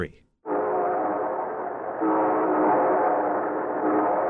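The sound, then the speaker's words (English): A train whistle sound effect starts after a brief silence and holds as a loud, sustained chord of layered tones. It grows slightly fuller partway through and keeps going steadily to the end. “And here comes our star-studded show train.”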